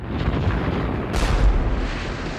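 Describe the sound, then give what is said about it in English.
Deep, continuous rumbling of artillery fire from wheeled field guns manned by squads, with a sharper, louder blast breaking through partway and the heavy roar carrying on after it. “Artillery guns on wheels manned by squads fire and roll backwards with the force of their shots.”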